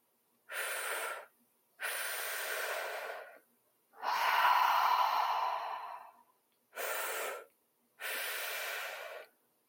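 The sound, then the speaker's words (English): Deep breathing during a breathwork exercise, drawn into the belly and chest and then exhaled. Five breathy rushes are separated by silence, and the middle one is the longest and fullest. “And we'll do a few more rounds of that breath together into the belly, into the chest. Exhale.”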